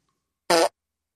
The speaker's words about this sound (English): Apparently there's hidden farts in this machine.